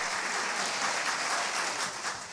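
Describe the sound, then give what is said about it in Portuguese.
Audience applauding at a Catholic gathering of young women: dense, sustained clapping that holds at an even loudness throughout. “Vamos lá aplaudir, gente.”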